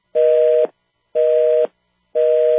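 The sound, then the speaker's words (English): Telephone busy signal on a call to a public health agency's line: three identical steady mid-pitched tone bursts, each about half a second long, evenly separated by half-second silences, clear and alone. “I guess the CDC's lines are busy now. I guess the CDC's lines are all tied up now.”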